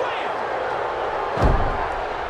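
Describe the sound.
A wrestling body slam hits the ring mat with a single heavy thud midway through, set against a steady wash of arena crowd noise.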